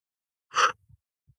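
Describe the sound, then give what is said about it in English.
A single short, sharp breath drawn in, like a deep inhale taken before blowing out the candles on a birthday cake, followed by a few faint low thumps and then quiet. “There's a bunch of candles. You take a deep breath in.”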